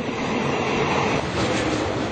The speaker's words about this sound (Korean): 태국 북부의 전통 도시 치앙마이를 향해 기찻길을 달린다.